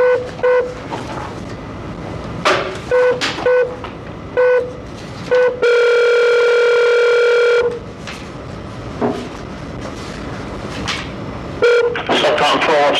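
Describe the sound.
A telephone number is dialed to reach a parole officer during a clemency board hearing: a series of short touch-tone beeps in quick groups, then a long steady tone lasting about two seconds, and more beeps afterwards.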